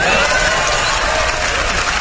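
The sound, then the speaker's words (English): Loud audience applause and cheering at the Oscars ceremony after the host announces an opening number, a dense, unbroken burst of many clapping hands mixed with crowd noise. “Who are these people that applaud that? Who goes, yes, he's going to do an opening number.”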